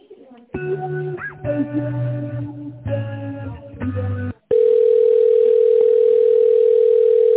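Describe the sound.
Steady telephone line tone while a call is being transferred. It follows a stretch of a voice talking, then holds loud and unbroken at one pitch until the end.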